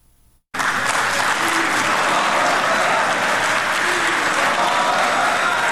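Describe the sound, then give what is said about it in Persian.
Applause fills a hall in a five-star hotel in Doha after a peace agreement signing ceremony. The clapping is loud, dense and steady, starting abruptly and continuing for about five seconds. “این صدای چکسک در هتل 5 ستاره اشراتون دوحه بعد از آن در فضای تالار بلند”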